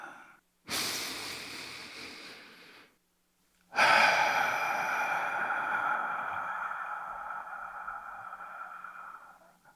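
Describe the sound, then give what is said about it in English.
A deep breath drawn before reading a story aloud: one long, airy inhale, a brief silence, then a longer, slow exhale that gradually fades. No other sounds accompany it. “I'm going to go ahead and take that deep breath.”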